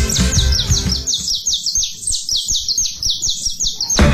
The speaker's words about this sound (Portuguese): A gente vai começar e vamos também ter a resposta aí, né, Canário da Terra? Ô, Canarinho da Terra!